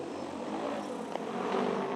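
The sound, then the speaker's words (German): A 60-kilo agricultural drone takes off to sow seed over fields, giving a continuous whirring rotor drone at steady loudness with no talking. “Diese Drohne geht gleich in die Luft, um Landwirte zu entlasten. Das 60-Kilo-Gerät streut Saatgut aus der Luft auf die Felder.”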